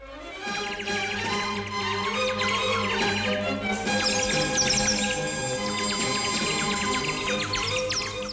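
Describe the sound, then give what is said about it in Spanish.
Robin song from a bird perched on a snow-covered palace balcony railing: a steady stream of bright, quick chirps and trills running the whole time over a continuous tonal background, with no talk. “Entonces el petirrojo voló, voló y voló hasta el palacio. Se sentó en las rejas del balcón, que estaba cubierto de nieve, y empezó a cantar.”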